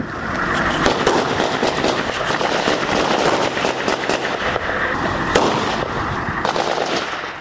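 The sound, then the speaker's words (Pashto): Gunfire near an Afghan forces post beside civilian houses rattles on without pause, a dense stream of sharp cracks and overlapping bursts that stays loud throughout. “دلته هر څوک چې وغواړي ډزې کولی سي.”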